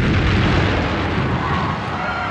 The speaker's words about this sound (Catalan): Com que la bomba està camuflada, ningú li fa cas. Pocs segons després, l'explosiu acaba petant.